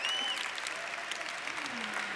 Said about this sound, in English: Give her a big round of applause.